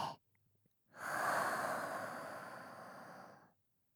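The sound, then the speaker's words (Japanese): A slow, controlled breath: a faint, brief intake through the nose, then a long, steady exhale through the mouth lasting about two and a half seconds, soft and heard alone. “鼻から吸って、口から吐いて、”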